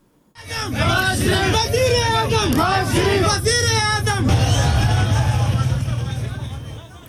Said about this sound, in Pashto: د نواز شریف ګڼ شمېر ملاتړي دي د موټر شاوخوا راغونډ شول او شعارونه یې ورکول چې د صدر اعظم دی.